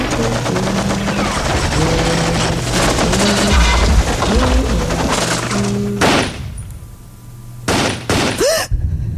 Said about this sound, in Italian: Quegli spari, cos'è stato?